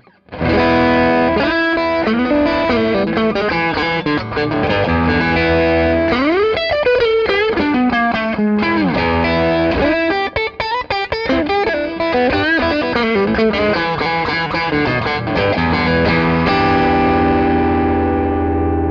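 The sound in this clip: Electric guitar played through a Clarksdale overdrive pedal: loud, continuous overdriven playing with shifting notes and chords, ending on a long sustained chord, with no talking.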